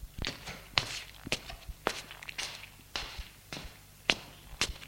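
Footsteps of someone pacing: a steady run of soft thuds and scuffs at about two steps per second, faint and unbroken throughout.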